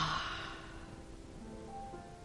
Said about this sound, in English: take a deep breath in through your nose slowly and breathe out through your mouth.